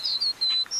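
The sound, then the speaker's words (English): High, clear whistled notes of a pampas meadowlark singing in Argentine grassland, a few short slurred phrases in quick succession, loud and alone without any voices. “It's the sound of a pampas meadowlark calling in the morning.”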